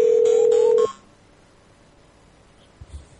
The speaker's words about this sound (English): Is that a Nokia 6100 you're rocking there with that ringtone